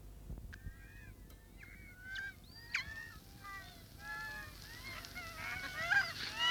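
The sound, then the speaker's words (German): Seagulls call over and over in a busy flock. Many overlapping mewing and squawking cries sound above a low, steady rumble and grow louder toward the end. “Ich hasse die Möwen”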